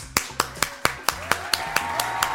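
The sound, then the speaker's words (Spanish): Hand clapping as applause requested for a camera operator: a steady, evenly spaced run of sharp, crisp claps at a brisk, regular rhythm, each a bright percussive snap of similar loudness, with no talk over them. “quiero pedir un aplauso para Fabián.”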